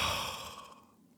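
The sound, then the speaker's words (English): A single long exhale through the mouth, ending a calming breathing exercise. The breathy, airy sigh starts fairly strong and fades steadily to quiet over about a second. “And then exhale through the mouth.”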